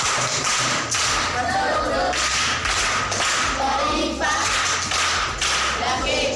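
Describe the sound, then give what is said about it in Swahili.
Applause from pupils at a primary school quiz: dense, continuous clapping that fills the whole stretch, with voices mixed in. “Makofi kwa mjomba.”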